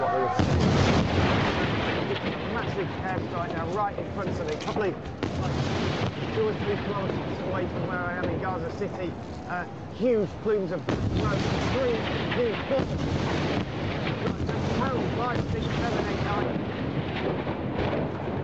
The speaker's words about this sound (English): Soon after, possibly in retaliation, Israel struck back with massive force, as I was live on air.